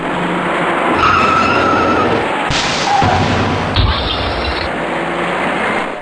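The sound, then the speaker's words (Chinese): Tyres skid and cars collide in a chain on a busy multi-lane highway, with a continuous loud screech of braking and a dull impact thud near the middle. Engine noise runs beneath throughout. “行驶在前面的车辆已经稳稳地减慢了行驶速度，可从后方开上来的几辆车却因为采取措施不及，接二连三地追撞在一起。”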